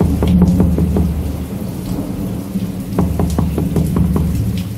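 Heavy rain pours through a nighttime thunderstorm, a dense, loud, continuous roar with repeated sharp crackling bursts of thunder breaking through it.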